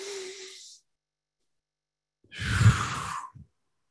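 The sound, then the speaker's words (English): A deep breath is drawn in during a somatic breathwork session. A faint, airy breath comes first, then after a silent pause a longer, louder sigh-like rush of air. “And we can all take a breath in.”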